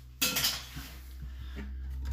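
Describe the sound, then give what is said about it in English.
An old ceramic toilet lid breaking: one sharp, loud crash followed by lighter clinking and rattling that fades out, with no talking. “I am currently... Whoops. Breaking my old toilet lid.”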